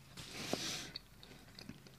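Soft chewing of Girl Scout cookies, with a faint, brief crunchy burst of biting followed by a few small scattered crunches and mouth clicks.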